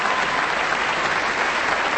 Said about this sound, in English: And Maestro Commissiona is turning to the orchestra and applauding for them.